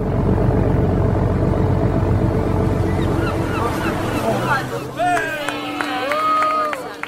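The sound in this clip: Steady, loud rumble of churning water and ferry engine noise as the boat comes into port, continuous throughout and easing slightly in the second half.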